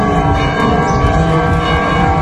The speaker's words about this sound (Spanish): Campanas en A Coruña que marcaban el inicio de la procesión entre San Jorge y la colegiata de Santa María del Campo.